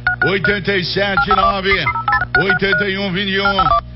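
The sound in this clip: Short, steady telephone keypad dialing tones beep a few times beneath a continuous talking voice.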